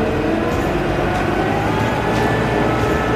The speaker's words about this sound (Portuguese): Não cai mais, é impressionante como esse motor 4 cilindros é forte. Agora eu vou subir toda a rotação dele de uma vez.